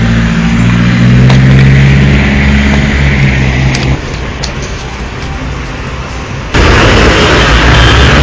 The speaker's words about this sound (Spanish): Un maldito carro que está todo con su ruido.